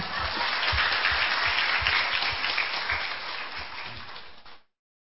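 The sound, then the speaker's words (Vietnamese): Applause from a Catholic Bible study group cheering themselves for finishing the Old Testament: many hands clap in a dense, steady roll with distinct low thuds, then stop abruptly after about four and a half seconds. “thì phải tự vỗ tay mà khen mình”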